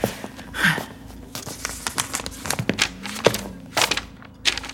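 Junk mail is crumpled for the bin: many irregular, fairly faint paper crinkles and sharp rustles, with a few duller thumps among them.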